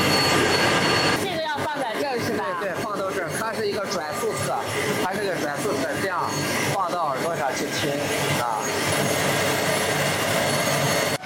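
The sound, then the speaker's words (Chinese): Steady rumbling roar of a power plant's unit-one generator set, heard through a listening rod pressed to the machine: a loud, unbroken, water-like drone with gritty rubbing textures, constant in level throughout. “咱们的那个发电机组的那个声音好像是轰隆隆的水的声音，我听的对不对？”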